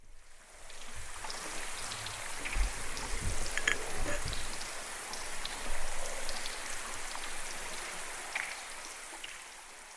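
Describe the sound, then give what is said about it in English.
A melting iceberg releasing air trapped and compressed in glacier ice gives off a dense, steady fizz of tiny pops and drips. It stays faint and continuous, with scattered sharper clicks. “That's the sound of an iceberg melting, Lewis informed us.”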